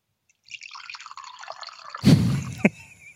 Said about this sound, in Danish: Så skulle man tro, at jeg var på toilet. Det var jeg ikke. Det var kaffe.